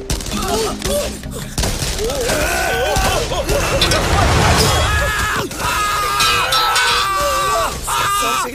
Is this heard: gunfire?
yes